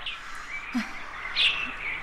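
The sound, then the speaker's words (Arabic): Birds chirp, with a few thin, high whistled notes rising out of a steady, faint background hiss. “وأصوات هذه الطيور تؤنسني”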